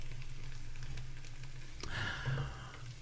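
Food cooking in a pan gives off a faint, steady sizzling hiss, broken once by a sharp click partway through.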